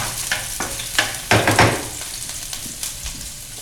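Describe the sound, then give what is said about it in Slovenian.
Chopped onion sizzling as it hits hot oil, a steady crackling fry with a louder burst of spattering partway through before settling back to an even hiss. “Najprej bom v vroče olje dodal čebulo. Tako, in se kratko opraži.”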